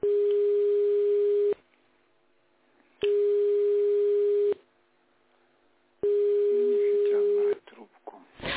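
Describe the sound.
Telephone ringback tone while a call connects: three long, steady mid-pitched beeps of equal length, each followed by an even stretch of silence.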